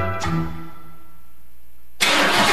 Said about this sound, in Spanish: Cuide su motor diésel.